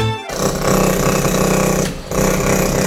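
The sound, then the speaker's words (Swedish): A hydraulic hammer (rammer) at work, a loud rapid pounding that merges into a harsh, continuous mechanical roar, with a brief drop in intensity near the end before the hammering resumes. “Hörde du? Det är en rammer i sitt naturliga habitat.”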